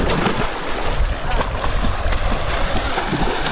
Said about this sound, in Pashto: اردوونکو دغه کم غږ چې تاسو اورئ، یو ځوان دی چې په اوبو کې لامبي.